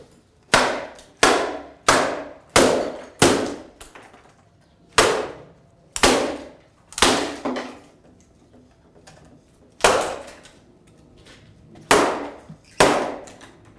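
Heavy blows smash apart what is left of an acoustic guitar, now down to its back: many sharp, loud woody cracks with short ringing tails, spaced irregularly with longer pauses between some hits.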